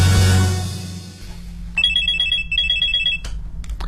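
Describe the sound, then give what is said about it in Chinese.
Telephone ringing in two loud electronic trilling bursts, one straight after the other, following a stretch of low rumbling noise. “现在又来电话，还是要50万”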